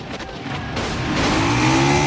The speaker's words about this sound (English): then zooms off on the bike